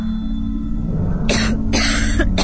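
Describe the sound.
An ailing mother coughing at home: a few harsh, breathy bursts in the second half, standing out over a steady low hum.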